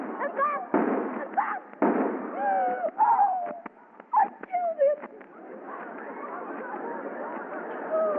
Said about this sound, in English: See this gun? You're a rat, Jim. Take that!